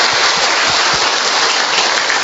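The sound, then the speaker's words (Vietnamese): A big round of applause from a Catholic audience celebrating Mary's birthday and patron-saint feast: loud, dense, continuous clapping that stays at an even level for just over two seconds. “Một tràng pháo tay thật lớn thưa anh chị em.”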